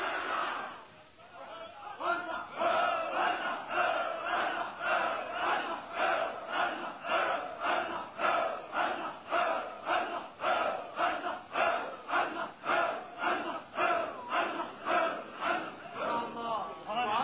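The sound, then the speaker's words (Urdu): A large crowd chants a religious slogan in unison in reply to a leader's call, with loud rhythmic shouts repeating many times in steady, evenly spaced pulses. “نعرہ تحقیق لگاؤ، نعرہ سنیو حق چار یار، نعرہ تحقیق.”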